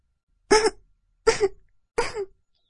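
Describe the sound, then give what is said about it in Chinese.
Three soft, short coughs, each a brief breathy burst, evenly spaced with silence between them. “他轻轻咳嗽几声，”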